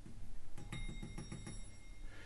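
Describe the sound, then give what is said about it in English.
A mechanical doorbell rings in a quick run of several sharp metallic strikes, bunched over about a second, then fades back to a low steady hum. “Here's the doorbell.”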